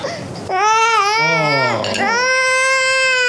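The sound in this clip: A baby being held cries loudly and continuously in long, wavering wails that rise and fall in pitch, with no quiet gap.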